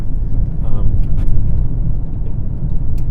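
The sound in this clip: Steady low engine and road rumble fill the interior of a moving car, a constant droning hum without clear breaks.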